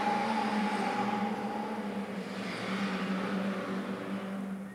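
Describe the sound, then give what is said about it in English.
A car races past outside: a steady, loud roar of engine and road noise with a sustained humming tone, holding fairly even through the whole clip and fading slightly at the end, with no voices. “Yeah, he won that race, whoever he was racing against. Whew. He's going to need some new tires soon, too.”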